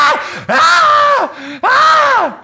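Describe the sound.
A human voice imitating bats screaming in their roost: a string of loud, drawn-out squealing wails, each arching up and then sliding down in pitch, separated by brief gaps.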